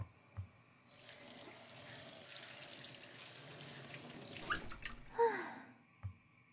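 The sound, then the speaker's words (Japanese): Running tap water splashes faintly as a horse mackerel is rinsed under the faucet. A steady, soft hiss of flowing water is broken by a few brief splashes and clinks. “水で洗う。”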